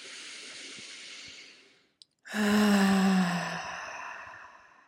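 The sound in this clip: A deep breath drawn in and then let out as a long exhale. A steady, airy inhale fades to a brief pause, then a louder, fuller exhale with a low voiced hum slowly trails off.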